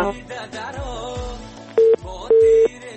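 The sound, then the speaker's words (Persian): A dropped phone call on a live call-in program ends in two short, flat, steady tones on the line, the second one longer, after a stretch of busier tonal sound. “متاسفانه که تماس آقای غفوری قطع شد.”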